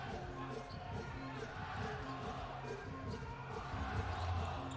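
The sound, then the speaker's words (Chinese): A basketball is dribbled past half court in a professional game involving the Shandong team. Repeated bounces sound under a commentator's ongoing talk and a low crowd murmur. “第一节比赛7分05秒的时间，珀塞尔面对燕守奇，运球过半场，”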